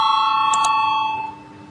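An electric voting bell rung in a parliament chamber gives a steady, bright ringing tone with a couple of quick clicks partway through, then fades away toward the end.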